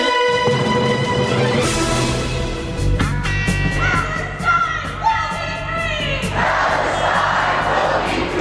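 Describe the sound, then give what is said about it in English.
Roughly 100 protesters outside a university campus library shout and chant loudly and continuously, with voices rising into yells and cheers throughout. “That is the sound of roughly 100 protesters outside the library on UW-Milwaukee's campus.”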